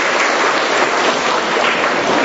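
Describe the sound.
Congregation applauding to welcome a guest, with loud, dense and steady clapping that continues unbroken throughout, with no voices over it.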